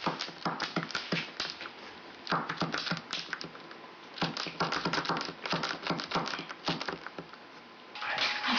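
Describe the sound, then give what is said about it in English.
Keys of a braille writer clack as a letter is written in Braille, many rapid, irregular strikes in steady bursts throughout, with no voices. “decides to write her a letter in Braille”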